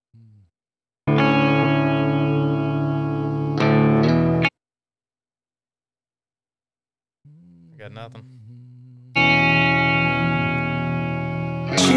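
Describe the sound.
A distorted electric rock song plays loud, cuts out into silence, then a voice speaks briefly before the heavy guitar-driven music comes back in.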